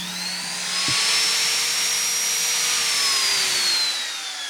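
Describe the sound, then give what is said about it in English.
A die grinder used for carving guitar necks spins up and holds a loud, steady, high-pitched whine over broad hiss, running alone without talk. “So this is a die grinder. It's what I used to carve necks with.”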